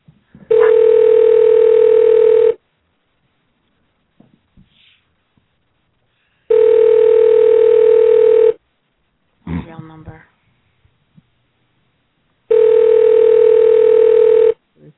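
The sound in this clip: An outgoing phone call rings through an internet calling service. Three even two-second ringback tones sound at regular intervals, loud and steady in pitch. A brief muffled noise falls between the second and third tones.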